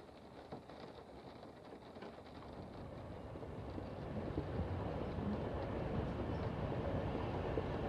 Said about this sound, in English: The engines pick up a little, the carriage vibrates, and the train moves off.